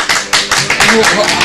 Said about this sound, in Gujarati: ચાલો અમે બધા તમને તાળીઓથી માન આપીએ છીએ.